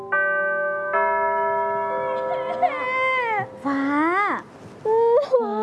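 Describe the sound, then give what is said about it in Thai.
A young girl crying and whimpering on arriving at a school dormitory: wavering wails that rise and fall in pitch, in several bursts over a sustained tonal backdrop. “ไม่ร้องนะลูก”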